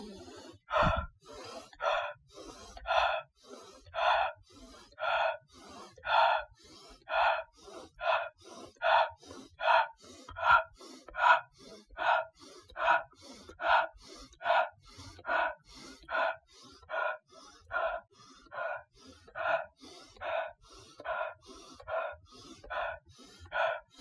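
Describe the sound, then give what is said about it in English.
Deep breathing during a guided breathwork exercise: many forceful, airy breaths in a steady, even rhythm, each a loud rush of air with short quiet gaps between, continuing for the whole stretch. “So we're going to start in 3, 2, on an inhale.”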